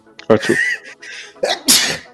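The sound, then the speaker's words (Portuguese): A person sneezes, with short breathy voiced sounds leading into a sharp, loud burst near the end. “E vou espirrar.”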